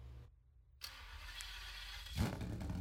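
A car engine with twelve individual throttle bodies and a custom-built header set cranks over and fires up. It catches with a sudden loud roar near the end and keeps running steadily.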